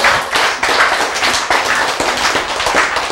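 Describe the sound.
An audience clapping together, a dense, loud, continuous patter of many hands with a brisk, steady rhythm and no voices.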